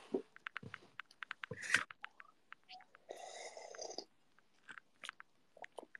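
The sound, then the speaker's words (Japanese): Slurping hot soup with green onions stirred in: a few short, wet sips and light clicks, then a louder, drawn-out slurp, followed by scattered small mouth and utensil ticks in otherwise quiet surroundings. “ちょっと熱そうなので、まずスープを飲んでから行きましょう。”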